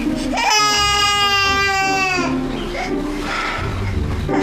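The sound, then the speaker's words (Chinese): A baby cries with a loud, high, strained wail held for nearly two seconds, then breaks into rougher, uneven sobbing sounds. “哭了，不哭了，躺下喽。”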